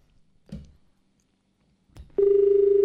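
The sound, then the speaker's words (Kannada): A telephone tone follows a disconnected call, preceded by two brief dull knocks and then starting abruptly as one loud, steady, mid-pitched electronic hum that holds to the end. “Hello, ಕರೆ cut ಆಗಿದೆ.”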